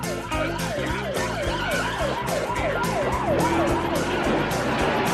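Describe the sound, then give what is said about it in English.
Police patrol car siren wailing in fast, steady up-and-down sweeps that repeat many times over a low rumbling engine and traffic bed, loud and continuous throughout. “Speeds past a waiting patrol car.”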